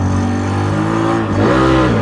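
A homemade shoe-shaped car over 30 years old runs in a car park with a loud, steady harmonic engine drone. The engine dips briefly, then revs up again and rises in pitch.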